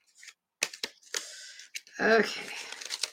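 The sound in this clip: Thick oracle cards being shuffled by hand: a few sharp clacks and taps, then a longer stretch of dense rustling and riffling as the stiff cards slide together.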